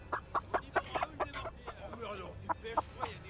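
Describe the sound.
A live chicken clucks in a rapid, uneven run of many short, sharp clucks, fairly faint, with a looser stretch in the middle before the clucking quickens again.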